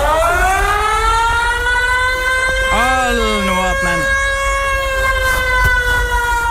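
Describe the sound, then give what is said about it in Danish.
An air raid siren sounds during a test: a loud, continuous, rich wailing tone that drifts slightly in pitch and holds throughout, while a voice speaks briefly over it. “Og det er jo måske ikke den mest behagelige lyd i hele verden, men det er jo nok heller ikke meningen med sådan en luftalarm, tænker jeg.”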